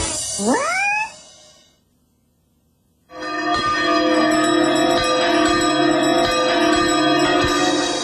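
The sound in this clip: Two church bells ring together in a loud, sustained clanging with repeated strikes that keep going for about five seconds after a brief silence. A short rising whistle-like sound comes before the silence.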